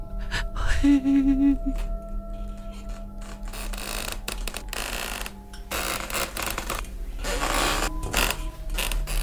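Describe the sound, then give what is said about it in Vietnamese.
A crowbar prying nails out of a wooden coffin lid, with repeated creaking, ratcheting scrapes and groaning strains that carry on steadily at a moderate level. “Ông Chiến đưa cái xà beng vào mà cậy lên từng nhát từng nhát. Từng cái đanh đóng nắp ván thiên cứ kéo kẹt bật ra khỏi thớ gỗ.”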